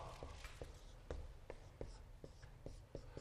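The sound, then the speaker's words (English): Writing on a board during a lesson on Hebrew words makes faint, scratchy strokes, many of them in a fairly regular rhythm, over a low steady background. “Gadol, let me write this.”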